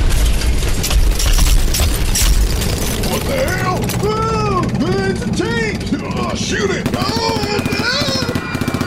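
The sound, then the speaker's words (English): Gunfire as robbers open fire during a hostage standoff: many sharp, rapid cracks and booms in a dense barrage, with voices crying out over the shooting. “the confused robbers begin to open fire”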